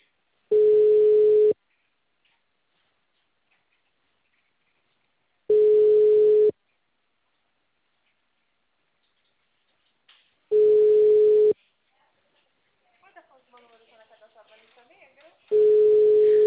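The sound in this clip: Ringback tone of an outgoing phone call in Brazil: four loud, steady one-second beeps, each followed by a long silent gap of about four seconds.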